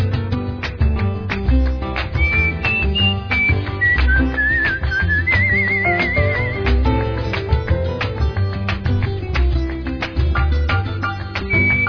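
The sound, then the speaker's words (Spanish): A whistled melody with a slight wavering vibrato rides on top of a steady band accompaniment in a song. The whistled line runs through the middle of the passage, and no one talks. “Y en la escalera me siento a silbar mi melodía.”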